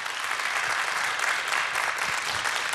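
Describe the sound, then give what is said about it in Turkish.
An audience gives strong, sustained applause to an orchestra at a Turkish classical music concert. The clapping is a dense, continuous roar that holds steady from start to finish. “Onur Özel Çağlayan ve orkestrasına da güçlü bir alkış rica edebilir miyim efendim?”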